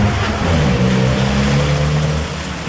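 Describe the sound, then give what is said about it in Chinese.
A Toyota Camry sedan's engine roars as the car speeds off and swings around, a steady low mechanical drone that holds loud throughout and eases slightly near the end. “蒙面的壮汉们听到之后飞快地上车，关上门，司机调转方向盘立即冲向钟世佳。”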